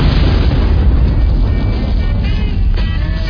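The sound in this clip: A loud explosion set off after a shouted blast warning in a Vietnam War setting: a deep, dense, sustained roar that holds at full strength through the whole clip without a break.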